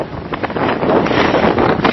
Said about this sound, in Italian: Qua c'è moltissimo vento. Questa è impresa.